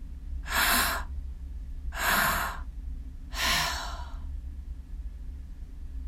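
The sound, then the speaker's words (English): Deep breaths are taken in and let go with short exhales through the mouth. Three evenly spaced, airy, sigh-like breaths each swell and fade over about a second, with quiet pauses between them and no talking. “As we do this breath, we're rushing our bodies with an abundance of oxygen, taking in air to the belly space, air to the heart space, and then letting go with a short exhale.”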